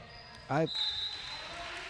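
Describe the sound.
A basketball bounces out on a three-point shot with a quick springy boing, followed by a thin, steady high ringing tone over a faint background murmur.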